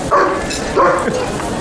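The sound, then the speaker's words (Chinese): Dog barking at a doorway gives two loud, sharp barks spaced apart, with quieter noise between them. “恶狗挡门，我进不去呀、啊。 老头，说谁是恶狗呢？ 这不是狗吗？”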